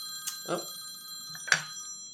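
A phone rings quietly with an electronic ringtone, steady high tones broken by a few short chirps, before the call is sent to voicemail.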